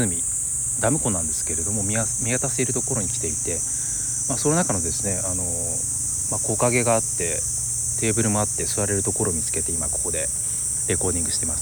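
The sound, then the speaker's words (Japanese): Cicadas singing in a large park overlooking a dam lake, with shade trees and a small stream nearby: a steady, high-pitched buzzing drone that runs without a break beneath a person talking. “セミの鳴き声なんかも聞こえると思います。”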